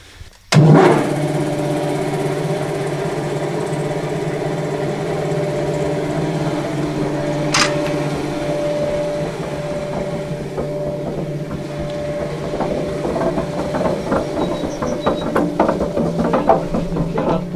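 A kierat power gear runs, driving oil-well pumping jacks through a flywheel, with a continuous low mechanical drone and a brief knock midway. Irregular clicking and creaking build up in the final seconds.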